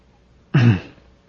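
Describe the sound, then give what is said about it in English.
A man clears his throat once with a short, gruff rasp that fades quickly, heard alone against near silence. “Lazarus cleared his throat and started in.”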